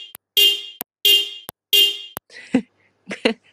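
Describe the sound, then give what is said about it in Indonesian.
A neighbour's car horn honks in three loud, sustained, buzzy blasts in a steady rhythm, with short sharp clicks between them and a few brief softer sounds afterwards. “Makasih klakson tetangga.”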